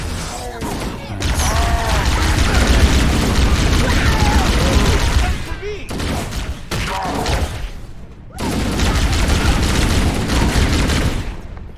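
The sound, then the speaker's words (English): Video-game plasma rifle fire and explosions in rapid, dense volleys that continue almost without a break, cut by two short pauses near the middle and latter part. “Plasma pistol? I got a plasma rifle now.”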